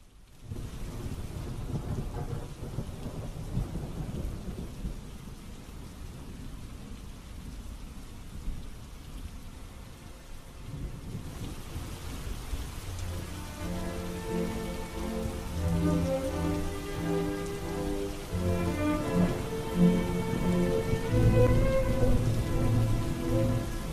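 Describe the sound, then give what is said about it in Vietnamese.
Steady rain patters outside at night, with low rumbles of thunder underneath. Partway through, a soft melody fades in and grows louder over the continuing downpour. “Ông cứ thở dài sườn sượt, lắng nghe tiếng mưa lộp bộp ngoài kia.”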